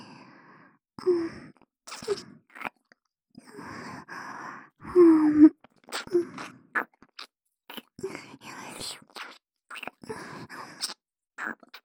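Close, intimate ASMR mouth sounds of ear eating: many moist chewing, nibbling and crunchy biting bursts mixed with breathy sighs and soft gasps, separated by short silences, at a gentle level.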